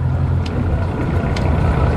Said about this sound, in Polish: Łódka jest zrobiona z aluminium. I teraz jedziemy na wstecznym i cofamy